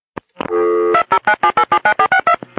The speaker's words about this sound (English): Okay, the number's been dialed and the call is going through.